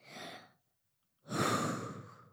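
Two deep, calming breaths taken slowly through the mouth: a short, soft breath, a pause of silence, then a longer, louder sigh-like breath that fades out, with no talk.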